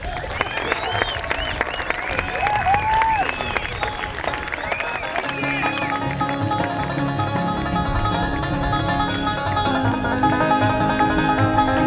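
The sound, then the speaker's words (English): A live show audience applauds a singer with dense, steady clapping and whistles, then instruments start up under the ongoing applause. “You'll enjoy his part of the program, and the harder you applaud for him, the harder he will sing for you.”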